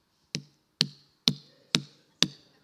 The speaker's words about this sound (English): That's the sound of a perfect watermelon.